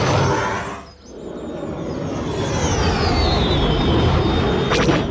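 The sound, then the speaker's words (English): Aircraft flying past at an air show: a loud, sustained roar with a high whine that slides down in pitch as the plane passes. “That was great to see some of the Star Wars aircraft there in this show today.”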